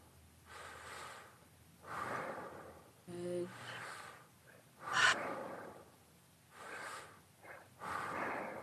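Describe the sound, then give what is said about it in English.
Powerful, forceful breaths from a breathing exercise, rushing in and out in several loud, breathy bursts with quieter gaps between them. “since it's short, you can go ahead and do the breaths as powerful as you'd like. And just feel that energy surge through your body.”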